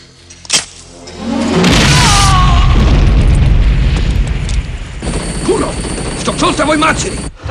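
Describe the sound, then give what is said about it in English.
A grenade detonating in an action-film scene after a wire snaps: a sharp snap, then a loud, deep boom that swells into a long, rumbling roar, with a voice speaking over part of it. “A wire snaps, detonating a grenade, which kills the soldier.”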